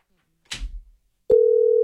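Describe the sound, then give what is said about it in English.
Telephone tone on a call being placed: a steady, continuous mid-pitched tone starts abruptly after a brief soft rustle and silence, and holds to the end. “Are you calling him? He's not going to answer. He never answers his phone.”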